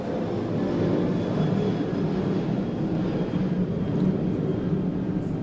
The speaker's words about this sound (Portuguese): Vou deixar aqui esse avião passar.